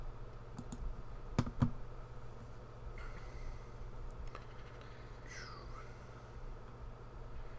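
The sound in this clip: A computer mouse clicks a few times, sharp, short ticks clustered near the start over a low steady hum, with a faint, quiet background.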